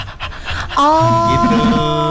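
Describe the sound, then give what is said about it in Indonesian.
A person demonstrates panting, rapid breathing used as a diaphragm-strengthening exercise: a few short breathy pulses, then a loud, sustained voiced exhale. “kalau misalnya nih pernapasan aku diafragmanya masih belum kuat gitu kan, nah aku bisa ambil cara kayak kita ngos-ngosan kayak.”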